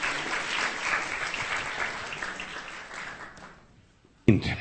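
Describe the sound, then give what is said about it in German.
Sustained applause for new members at a gathering, a dense wash of many clapping hands that holds steady, then fades away near the end before a brief, louder burst of another sound cuts in. “Also, geben wir dem Herrn einen Applaus.”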